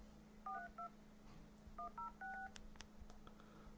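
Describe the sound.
Telephone keypad dialing tones: several short, clean electronic beeps pressed in two quick groups, quiet and alone, followed by a few faint clicks.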